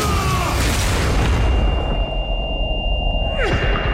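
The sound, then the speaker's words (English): Grenade explosions in a combat scene make a loud, sustained roar of booming blasts and rumble, with a whooshing sweep near the end. “Grenades, get down!”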